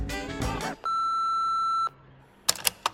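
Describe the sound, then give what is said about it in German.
An answering machine beep: one steady, clear electronic tone lasting about a second, followed after a short silence by a few soft clicks. “Es war eine Nachricht für ihn auf dem Anrufbeantworter.”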